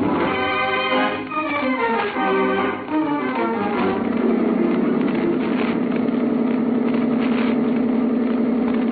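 A boat engine drones as the boat comes in toward an island, settling into a low, even hum that runs steadily to the end.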